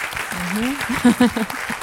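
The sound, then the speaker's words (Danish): Audience applause forms a soft, continuous bed of clapping while a voice speaks prominently over it. “Der skal bare klappes.”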